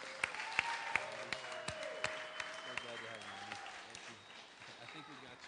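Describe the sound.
An audience claps to welcome a speaker to a church pulpit, with steady, even applause throughout and voices talking over it.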